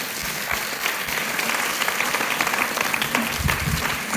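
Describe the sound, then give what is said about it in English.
Audience applause welcoming a guest at a gathering, a dense, continuous patter of many hands clapping at steady loudness for the whole stretch. “Skal vi klappe for henne?”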